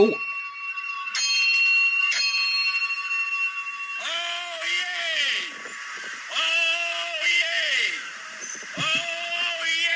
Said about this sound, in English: that town crier, that oh yay, was the Southwold town crier